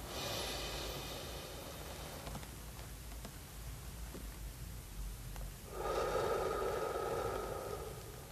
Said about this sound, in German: 3 Sekunden einatmen, 3 Sekunden Luft anhalten, 3 Sekunden ausatmen. Also so.